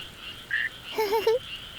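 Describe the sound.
Frogs croak in a few short, chirpy, warbling calls, one brief call first and then a quick cluster of bubbly notes, rather high and clear over a quiet background.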